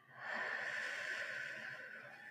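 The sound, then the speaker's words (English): A single long, deep breath drawn in through the nose and let out through the mouth, a soft, airy hiss that stays steady for a couple of seconds and is heard alone. “Take a deep breath in through your nose and out your mouth.”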